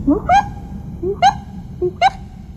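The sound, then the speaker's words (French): An owl calling in the distance: three short, faint calls spaced roughly a second apart, each sweeping upward in pitch, heard over a low background rumble. “On l'entend au loin, la chouette.”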